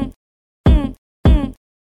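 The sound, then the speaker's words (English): Three short vocal grunts like those in a song, each a punchy, low, voiced burst separated by silence, falling at an even, rhythmic spacing. “another thing I really like about that song in particular is the little grunts that you get in it. The sounds like this.”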